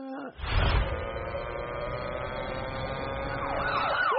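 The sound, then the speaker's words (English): A police siren wails in a steady, loud tone over a low rumble, breaking into rapid up-and-down sweeps near the end. “That's the sound of the police!”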